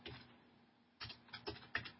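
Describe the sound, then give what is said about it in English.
Typing on a computer keyboard: a few soft, separate key clicks at irregular intervals, faint and mostly in the second half. “Let me type in the last thought.”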